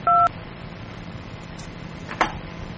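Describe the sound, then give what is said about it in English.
One short, loud telephone keypad tone sounds as the 2 key is pressed on an automated phone menu. Faint low noise follows, with a brief click near the end. “I dial 2, man.”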